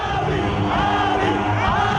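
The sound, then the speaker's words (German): Supporters chant Abiy Ahmed's name in the streets of Addis Ababa, a loud and dense crowd roar of many voices yelling together in waves that swell and ease without pause. “Anfang 2018 rufen Anhänger auf den Straßen der Hauptstadt Addis Abeba immer wieder seinen Namen.”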